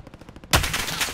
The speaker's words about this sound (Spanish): Alguien me dispara, ¿eh? Ya, a mí.